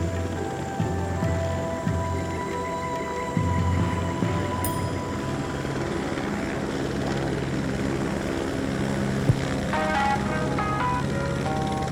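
A propeller aircraft flies overhead, and its engine holds a loud, continuous drone with a steady tone from start to finish.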